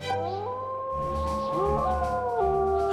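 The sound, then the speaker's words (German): Dogs howling in a dark forest: several long, sustained howls overlap, their pitch gliding up and down, fairly loud and steady above a low rumbling background. “Oh, Hundis!”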